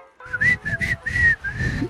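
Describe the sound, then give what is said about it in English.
Someone whistling a cowboy song, a clear, bright melody of five notes, the last two held longer, fairly loud and alone. “He walked into a bar whistling a cowboy song.”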